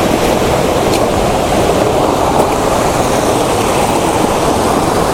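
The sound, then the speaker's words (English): Rushing water from a waterfall fills the air with a loud, steady, unbroken roar, with no voices. “So there's another kind of impressive waterfall system here, and it looks like the best place to photograph it is down there”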